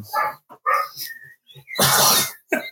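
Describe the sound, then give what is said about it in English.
A dog barks in a few short, irregular bursts, with one longer, rougher outburst among them. “shut that fucking dog up.”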